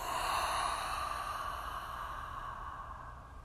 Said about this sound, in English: And let's take 2 more breaths just like that. Inhale. And exhale.